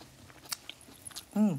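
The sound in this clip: Crunchy chewing of cooked Swiss chard during a meal: a few crisp, sharp bites and chews spaced unevenly. They are followed by a short, appreciative hummed "mm" from a person eating.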